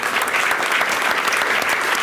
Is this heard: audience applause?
yes